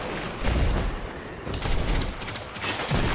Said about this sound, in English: Grenade!